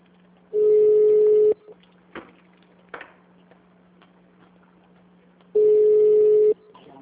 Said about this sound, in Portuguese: Aguarde um instante. Estamos transferindo a sua ligação.